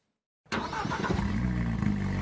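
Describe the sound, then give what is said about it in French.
A 250-horsepower Alpine sports car of the French gendarmerie on the N165 between Vannes and Lorient, its engine bursting in after a brief silence and holding a loud, steady mid-pitched drone. “Direction la 165 entre Vannes et Lorient, où les 250 chevaux de l'Alpine devraient vite donner satisfaction aux gendarmes qui la pilotent.”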